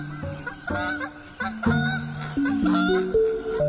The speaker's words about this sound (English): At dusk, a wild goose heading east.